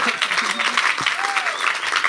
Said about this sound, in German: der Mariette einen grossen Applaus geben